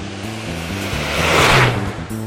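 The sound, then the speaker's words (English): A car driven fast: a steady engine roar with low droning tones swells to a loud peak around the middle, then eases slightly before a brief bump at the end. “We raced to the scene of the sinister plot as fast as we could. As I jumped out of my car”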